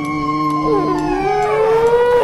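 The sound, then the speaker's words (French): Wolf howling in a distant forest: long, drawn-out wavering tones that overlap, some gliding upward and others sliding down, sustained without a break over a steady background. “Forêt lointaine, on entend le grand loup.”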